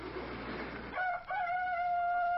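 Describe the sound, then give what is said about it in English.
A rooster crows on a spring morning in one long, steady call with a brief break near its start. The call follows about a second of broad rushing noise and holds a level, bright tone until the end. “A cock crows.”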